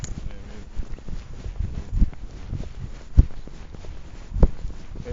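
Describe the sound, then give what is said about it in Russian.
Footsteps of people walking together, a run of soft, irregular steps with a few heavier thuds standing out. The steps sit in faint background noise, with no clear talk over them. “Ну вот мы сейчас идем.”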